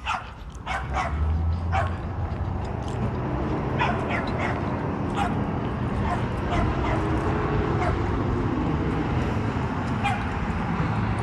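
Dogs bark and yip in many sharp, irregular bursts over a steady low rumble of outdoor noise, some barks loud and others fainter and overlapping.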